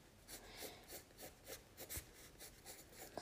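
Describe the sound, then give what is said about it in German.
Faint scratching of a pen or pencil on paper while drawing eyes, made of many short, quick strokes in an uneven rhythm, with no talk. “So, ich bin gerade bei den Augen dran. So, ich zeichne die Augen ein bisschen anders.”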